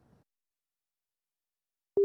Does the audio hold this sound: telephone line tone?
yes